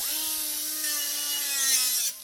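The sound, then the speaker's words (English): A welder works on an aluminum running wheelchair frame in a machine shop in Dudley. A steady buzzing hiss rides over a low tonal hum, holds evenly, then cuts off shortly before the end. “It's a Saturday afternoon at Southbridge Tool and Manufacturing in Dudley. A welder is working on an aluminum wheelchair frame.”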